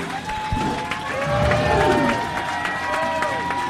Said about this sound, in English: Standing ovation from the panel for the great Vicky Reagan and the audience. The first ever universal standing ovation in the show's history.